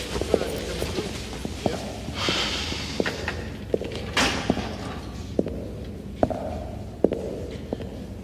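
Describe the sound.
Footsteps of a person taking a long walk: slow, evenly spaced steps thudding one after another at a steady pace over a constant background noise.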